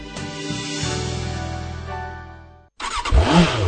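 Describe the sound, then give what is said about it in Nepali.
A Bangladesh-made Runner motorcycle engine revs in a loud, steady mid-pitched drone whose pitch climbs slightly after the first second, holds for over two seconds, then cuts off abruptly before a brief, different burst of sound. “आइपुग्यो आइपुग्यो बङ्गलादेशमा निर्मित runner मोटरसाइकलहरू Nepali बजारमा आइपुग्यो”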